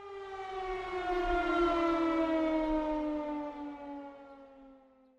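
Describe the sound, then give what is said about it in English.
A civil-defense-style siren used as a spoiler-alert sound effect gives one long wail whose pitch slowly sinks. It swells early, then gradually fades away, with no talk. “Let me sound the spoiler alert.”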